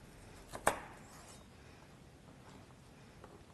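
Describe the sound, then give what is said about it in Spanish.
A knife chops vegetables being cut into long strips: one sharp, clear cutting stroke, preceded by a fainter tap, followed by near silence. “Bueno, esto vamos a cortarlo así también en tiras. Así largas, esta la voy a cortar así.”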